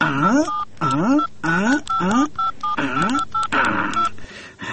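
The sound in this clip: Phone keypad dialing tones: several short, steady beeps set between louder, wavering, voice-like sounds.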